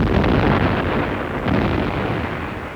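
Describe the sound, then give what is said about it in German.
Loud rolling cannon fire from artillery manoeuvres on the Bosna river near Sarajevo, a continuous booming rumble with no clear gaps between shots. “3 Tage Kanonendonner. Mir dröhnen schon die Ohren.”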